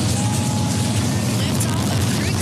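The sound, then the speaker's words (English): A Falcon 9 rocket launches from Cape Canaveral carrying a crew, producing a continuous heavy roar. The deep, rumbling blast stays loud and steady with no breaks. “That is the sound of the beginning of a great adventure for Joshua Kutrick, the Canadian astronaut on board the Falcon 9 rocket that launched this morning from Cape Canaveral.”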